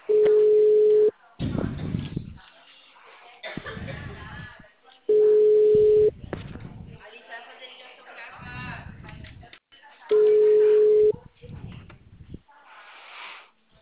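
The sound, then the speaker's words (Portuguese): Ringback tone of a telephone call being placed: three steady, low-pitched tones, each about one second long and spaced about four seconds apart. Muffled voices talk in the gaps between them. “vou fazer a ligação, tá?”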